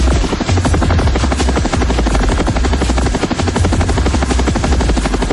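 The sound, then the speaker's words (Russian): Helicopter rotor noise, loud and continuous, with a dense rapid chop pulsing steadily from start to finish over a deep engine rumble; no voices. “Вертолет стремительно развернулся и стал снижаться.”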